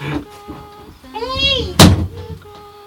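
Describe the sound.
A door swings shut, giving a short squeaky creak and then one loud, solid thud, with voices talking around it.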